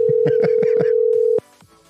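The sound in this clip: Telephone dialing to call back someone who was disconnected: a steady dial tone holds under a quick series of rhythmic keypress blips, then cuts off abruptly, leaving faint clicks.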